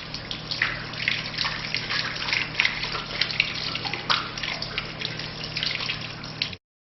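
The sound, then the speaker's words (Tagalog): Water running from a tap as both hands are washed up to the wrists during ablution: a steady, noisy rush with small splashes and gurgles throughout, heard alone and cut off abruptly just before the end. “Hugasan ang dalawang kamay hanggang pulso ng 3 beses.”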